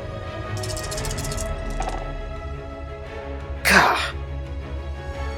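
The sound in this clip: Dice are rolled for damage in a tabletop role-playing game: a short rattle early on, then a sharper, louder clatter, with people talking around it.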